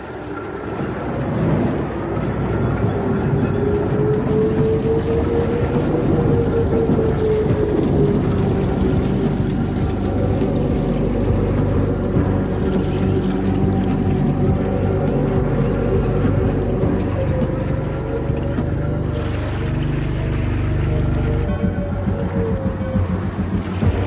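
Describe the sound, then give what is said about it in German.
A rain and thunder storm at sea heard aboard a boat: a loud, continuous rumbling roar with a wavering howl running through it. It holds steady throughout with no talking. “Was meinen Sie, wie lange wird der Sturm noch dauern?”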